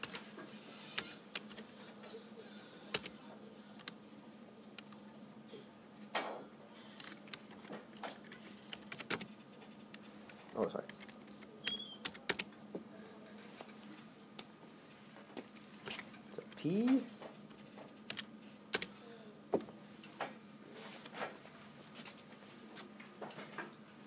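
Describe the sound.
Typing on a computer keyboard produces scattered, faint key clicks and occasional clustered taps over a long stretch, with people talking throughout.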